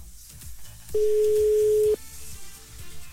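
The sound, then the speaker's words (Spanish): A telephone ringing tone on an outgoing call: one steady, mid-pitched tone about a second long that starts and stops cleanly over faint background noise. “está timbrando”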